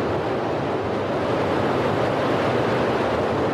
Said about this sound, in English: Successful liftoff for Falcon 9 from pad 39A.